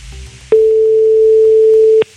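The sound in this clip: An outgoing telephone call rings without answer: one steady, loud, mid-pitched ringback tone lasts about a second and a half, starting and stopping abruptly over faint background noise.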